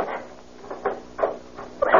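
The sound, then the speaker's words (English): An aircraft cabin door is pulled shut and locked, heard as a few soft clunks and rattling knocks at moderate loudness, the last one the strongest. “first climb up and close the cabin door and lock it. Yeah. You got everything you want out of the cabin? Yeah. Okay, here she goes, then.”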